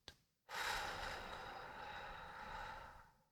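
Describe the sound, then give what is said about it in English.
One slow, deep breath drawn out for nearly three seconds as a soft, airy rush. It follows a brief faint intake at the start and is taken while someone is being coached to calm down. “Just calm down. Breathe with me. In. Out.”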